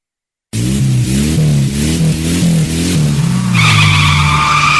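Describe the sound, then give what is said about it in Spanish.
Race car tires skidding on an asphalt circuit, a continuous loud engine drone with wavering tones, joined near the end by a sharp, high tire squeal. “Derrapando.”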